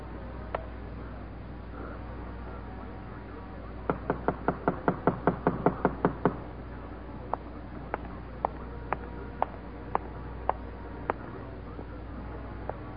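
Someone knocks on a door: a single knock, then a quick run of about ten sharp raps, followed by slower, evenly spaced knocks. The knocks sound faint and dry over a low, steady hum.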